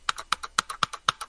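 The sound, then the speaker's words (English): Mechanical keyboard keys clack in a brisk, steady run of typing, alternating sharper and softer clicks, with no talking. “That noise is a mechanical keyboard sound.”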